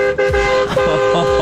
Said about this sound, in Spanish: Estoy afuera con el camión. ¿Querés que toque bocina? Toco.